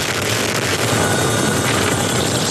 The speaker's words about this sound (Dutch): Dit is het geluid van de Nederlandse Chinook-helikopter die helpt bij het blussen van de grootste natuurbrand van de afgelopen 100 jaar in België.